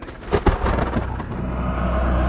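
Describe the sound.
Thunder booms as a sound effect, opening with a few sharp cracks and then rolling into a continuous, heavy low rumble that holds steady to the end.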